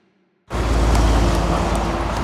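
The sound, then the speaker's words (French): A truck overtaking on a big boulevard: after a brief quiet moment, a loud, broad rumbling roar starts abruptly and holds steady and full to the end. “Je me trouve actuellement sur un grand boulevard. Je viens de me faire doubler par un camion.”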